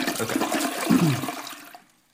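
A toilet flushes once with a loud rush of swirling water that surges, then drains away and fades to near silence at the end, with no voices.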